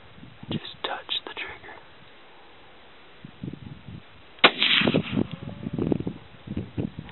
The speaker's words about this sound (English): Oh, I'll shoot him. Let's go try it. Yeah, put it right in the middle of his chest.